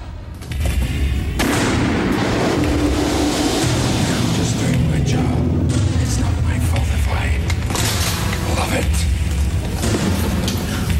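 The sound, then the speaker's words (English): Gunfire in an audio drama as a crew takes aim and shoots at a character running for cover: a loud, dense barrage of blasts and booms that goes on without a break. “The crew take aim as Rimmer runs for cover. Hudson shoots, but misses him.”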